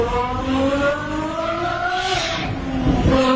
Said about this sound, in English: those lights don't even come on until you hit 7,000 RPMs. Right. So I mean, he's revving that engine.